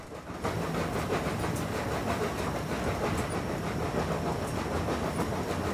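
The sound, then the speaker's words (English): A train picking up speed, a steady low rumble with a rhythmic clattering that swells in at the start and then runs evenly. “Roger stares ahead with concentration and focus, and the train picks up speed.”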